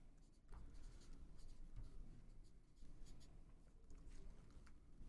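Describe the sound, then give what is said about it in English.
A pen scratches on paper as an answer is written down, a faint, continuous scribbling with brief pauses between strokes. “I'm just writing my answer down.”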